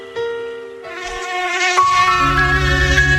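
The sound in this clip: An Aedes mosquito, the dengue carrier, gives off a steady, high, thin whine with layered overtones. It grows louder as it goes, and a denser buzzing layer fills in over the second half.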